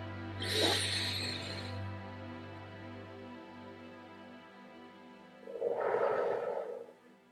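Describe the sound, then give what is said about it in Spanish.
Deep breathing during a guided relaxation exercise: a soft, airy breath near the start and a second, lower breath a few seconds later, with a steady low hum underneath. “No olvides respirar. Inhala.”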